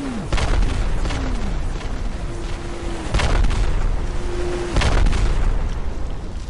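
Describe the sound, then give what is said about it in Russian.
Rocket explosions burst across an open stretch between a farm and a village. Several deep booms rise over a continuous roaring rumble, with whistles sliding downward in pitch between the blasts. “Но вдруг пространство между фермерским предприятием и деревней, а это более 300 метров, взорвалось.”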